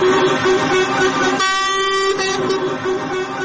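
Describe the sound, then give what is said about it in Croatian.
Truck horns blare from a convoy of more than 500 lorries jamming a main road in Sarajevo, with a loud, steady honking over traffic noise and one long sustained horn blast in the middle. “Kolona od više od 500 kamiona je zagušila glavnu sarajevsku saobraćajnicu uz zaglušujući zvuk kamionskih sirena.”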